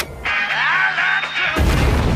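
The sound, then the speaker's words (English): A rocket engine fires at liftoff: a dense, loud roar cuts in abruptly after a short tonal lead-in and holds steady to the end. “Fire spews out of the base of the rocket, and liftoff commences.”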